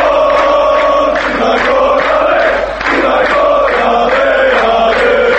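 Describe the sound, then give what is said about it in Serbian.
Football fans chant loudly at a European Championship qualifier. The crowd's sound is sustained, with a rhythmic pattern of repeated phrases that holds throughout. “Ovo, nažalost, nisu navijači crnogorske reprezentacije koji u Poljskoj ili Ukrajini bodre nacionalnu selekciju, već samo snimak sa jedne od utakmica kvalifikacija za ovogodišnje evropsko prvenstvo u fudbalu”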